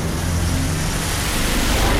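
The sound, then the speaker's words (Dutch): Deep, continuous engine roar from V8-engined cars driving past, loud and steady throughout, with a low rumbling tone beneath broad rushing noise. “Dan hoor je even een paar V8'en voorbij komen.”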